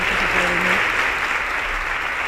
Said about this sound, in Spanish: I els aplaudiments, el públic, evidentment, mostrant ese cariño i ese suport a les dos corts d'honor, a la infantil i a la major.